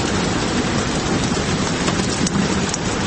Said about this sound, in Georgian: ოთახში დამონტაჟებული დინამიკიდან გამოსული წვიმის ხმა ოთახს წყლით ავსებს, თუმცა იატაკზე გუბეები არსად ჩანს.